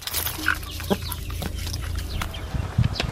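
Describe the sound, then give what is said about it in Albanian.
Chickens clucking as they are fed in a home garden, with soft overlapping clucks and occasional louder squawks over steady outdoor background noise. “Muhamet Ramadani ka përfunduar punët në kopshtin e tij dhe nisi ushqej pulat”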